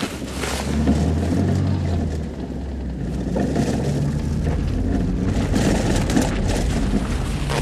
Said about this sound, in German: Hören Sie auf ihn. Bitte, fahren Sie los.